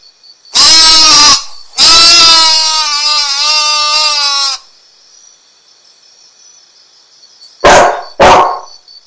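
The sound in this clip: A dog gives two loud, drawn-out harmonic cries, the second lasting over two seconds with a wavering pitch. After a quiet pause come two short, sharp barks.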